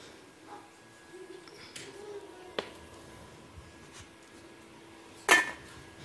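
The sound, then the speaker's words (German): A metal pot clinks as a pot of simmering noodles is set onto the large stove burner: a light knock midway, then a sharper clank near the end, over faint kitchen hum. “Unsere Nudeln köcheln da dahin. Wir werden die da auf die große Kochplatte stellen.”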